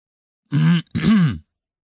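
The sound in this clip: A man loudly clears his throat in two harsh, gruff bursts, the second a little longer and rougher than the first, with nothing else heard around them.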